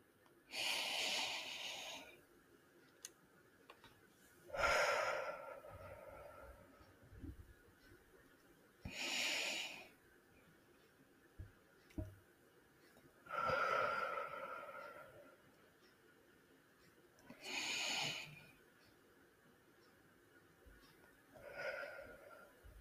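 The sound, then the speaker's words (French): Slow, deep breaths in and out, heard as long, airy, breathy rushes that swell and fade at fairly even intervals, separated by quiet pauses. “je vais vous inviter à fermer les yeux et à prendre trois profondes respirations.”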